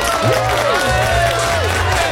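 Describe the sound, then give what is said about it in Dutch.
An audience at a music festival applauds and cheers for a performer. Clapping blends with voices and shouts into a lively, continuous wash of sound. “En ik wil een groot applaus voor Indie.”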